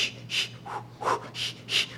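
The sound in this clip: Quick panting breaths, a voice demonstrating the labour breathing technique used to hold back the urge to push: a run of about five short rhythmic huffs, soft and airy, with no talk.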